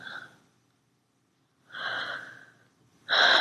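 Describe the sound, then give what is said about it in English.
Warm breathing close to the listener's neck: three soft, airy breaths separated by quiet pauses, the last one loudest and nearest. “Can you feel my warm breath on it?”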